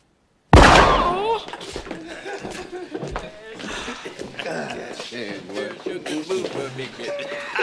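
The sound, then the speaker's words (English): In a film scene, one sharp, loud gunshot rings out and fades, and people then talk over it. “You didn't have to shoot that old lady in the foot, man.”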